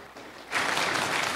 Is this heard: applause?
yes